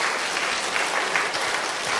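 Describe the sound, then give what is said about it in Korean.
Congregation applause at a church service: a dense, steady wash of many hands clapping, even and sustained throughout with no pauses, and no clear voices above it. “우리의 박수로 영광 올리기를 바랍니다.”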